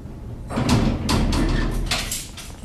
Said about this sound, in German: schließt die Eisentür. Wir sind gefangen hinter Schloss und Riegel.